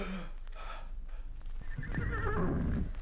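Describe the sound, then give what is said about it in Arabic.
A horse struck by an arrow lets out a loud, shrill whinny that builds after a few breathy snorts and trembles on to the end. “أخطأت من انفعالي، أصبت الحصان وكريم سليم. يا إلهي ما هذا؟ سقط الحصان.”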